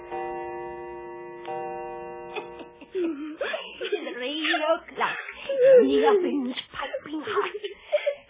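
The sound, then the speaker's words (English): A young girl cries and sobs in a dramatized Hansel and Gretel tale, with long wailing, moaning cries whose pitch wavers and breaks. The sobbing swells louder midway and carries on unbroken. “Now stop your blubbering and listen.”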